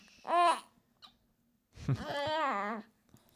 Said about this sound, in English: I think she might be waking up. Or is she just doing her diva noises? She's just doing some diva noises.